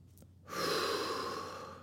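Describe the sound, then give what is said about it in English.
A slow, deep inhale: a soft, airy hiss that begins after about half a second and holds steady to the end, faint and with no talk over it. “Take a breath in. It's life.”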